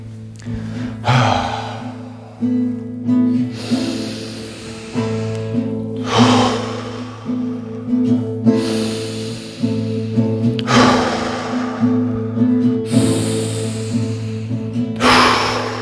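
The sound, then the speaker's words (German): Deep breathing in through the nose and out, as slow, airy breaths repeating at a steady rhythm over a constant low droning tone, with no talk. “stark durch deine Nase einatmen und aus, ein, aus, ein, aus und durch den Mund ein”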